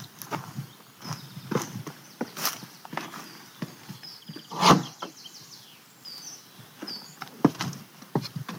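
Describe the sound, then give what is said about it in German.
Thumping footsteps on the wooden rungs of a ladder as someone climbs up to a raised hunting stand in forest undergrowth: many irregular knocks and creaks, with birds chirping softly in the background. “Etwa 2 Meter vom Weg befindet sich im Unterholz die Leiter zum Hochsitz. Und die steigen wir jetzt mal hoch.”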